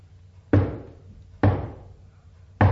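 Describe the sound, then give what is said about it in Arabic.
Knocking on a door, three loud, heavy thuds spaced about a second apart, each with a short booming decay, with no talk. “ابدا دي خبطة عالي، افتح حنيشة.”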